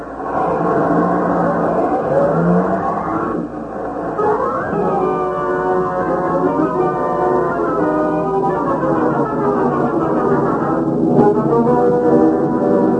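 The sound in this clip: A getaway car's engine roars as it accelerates away, a loud sustained drone whose layered tones repeatedly climb in pitch, heard alone without talk.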